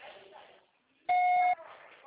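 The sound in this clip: A voicemail beep sounds before a message is recorded. It is a single loud, steady electronic tone about half a second long, with faint voices just before and after.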